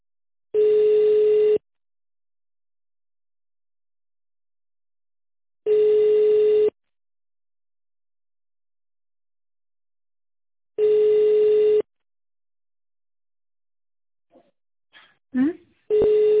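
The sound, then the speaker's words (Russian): Telephone signal tones before a voicemail prompt: three long, steady, evenly spaced beeps, each about a second long with several seconds of silence between. Brief speech follows at the end. “нажмите 0 и оставьте сообщение после сигнала.”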